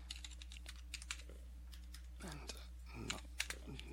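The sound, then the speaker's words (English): Quick, irregular clicks of typing on a computer keyboard: many faint keystrokes in uneven bursts over a steady low hum. “I've got fat fingers typing”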